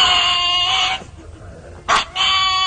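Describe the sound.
A dog vocalizes in a way that resembles a spoken word: a long, drawn-out, strongly tonal call, a short pause, then a brief loud burst and a further sustained call.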